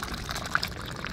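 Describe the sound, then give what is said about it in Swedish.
Coffee being poured into a cup at an outdoor coffee stand in a park: a brief, soft, splashy trickle of liquid with no talk over it. “Ja, det låter som att ni häller upp en kopp kaffe.”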